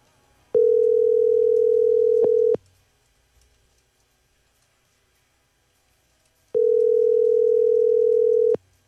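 Telephone ringback tone heard while calling someone's mobile phone: two steady, mid-pitched tones, each lasting about two seconds, separated by roughly four seconds of silence.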